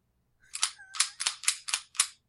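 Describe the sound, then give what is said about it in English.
A handgun being cleared, its chambered round removed: a rapid series of sharp metallic clacks and snaps from the action, about six in quick succession, loud and crisp with nothing else heard. “Oh yeah, I had to check, so I had to clear my weapon real quick.”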